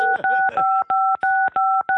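Telephone keypad dialing tones: a rapid series of steady two-note electronic beeps, about seven in a row. Each tone is cut by a short click, with the same pitch pair repeating throughout.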